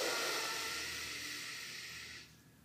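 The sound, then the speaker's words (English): A deep, slow breath during a relaxation exercise: a long, breathy hiss of air that is loudest at first, gradually softens and then fades out, with no voices. “take a nice long in breath, all and filling your breath all the way down to your belly”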